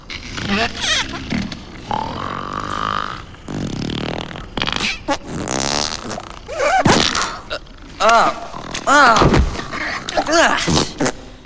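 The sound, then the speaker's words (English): Cartoonish fart noises from a sleeping crew member in a hammock aboard a ship at daybreak, a string of blubbery, pitched blasts and grunting bursts, fairly loud and repeated across the stretch. “Snuff is asleep above Jim, and his flatulent noises jolt Jim out of his hammock.”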